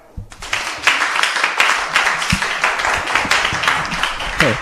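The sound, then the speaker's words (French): Audience applause after a speech in a debate competition, with brisk, dense clapping that begins suddenly and continues steadily at a lively level. “Bravo du public.”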